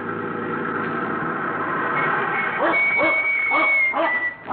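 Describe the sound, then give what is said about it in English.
Dog barking at a cattle ranch: a dog named Duke lets out a quick series of sharp, repeated barks in the second half, after a steadier stretch of lower-pitched growling and whining. “Will you get away, Duke? Well, that dog dangerous?”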